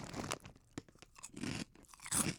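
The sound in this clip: Crunching as someone chews truffle-flavored Korean crackers. A few crisp, brittle crunch bursts alternate with quieter wet chewing, close and fairly faint, with no talking.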